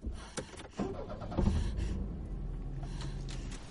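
A car starting and driving away: a quiet engine turns over with a few brief clicks and knocks, then settles into a low, steady running rumble.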